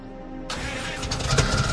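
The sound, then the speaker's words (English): A Jeep engine is turned over in a workshop and fires up: a low, quiet hum gives way to a sudden broad burst as the engine catches, then it keeps running with a rough, fluctuating rumble. “Zach turns a wrench under the Jeep's hood. All right, turn it over.”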